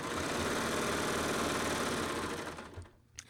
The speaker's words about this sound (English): So I just clipped my upper looper thread, okay? And I'm gonna sew out.